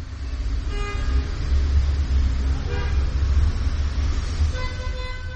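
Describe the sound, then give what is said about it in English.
Morning-commute traffic rumbles around a small corner park tucked between two busy streets, a steady low roar of passing vehicles. A few brief horn toots stand out above the constant wash of road noise. “The police pass by a dry fountain and stop in a small corner park, tucked between two busy streets, full of the morning commute.”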